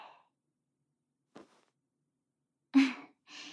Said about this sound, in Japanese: はい、息を吐いて。